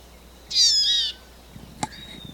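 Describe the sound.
A wild female bird gives a single sustained, high-pitched call lasting about half a second. A brief sharp click follows later against faint background hiss.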